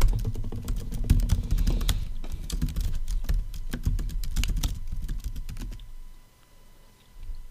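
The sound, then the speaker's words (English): Rapid, irregular clicking of computer keyboard keys as a search is typed, many keystrokes in quick bursts that thin out and stop near the end. “I'll just type in Orion's Belt, Great Pyramids of Giza.”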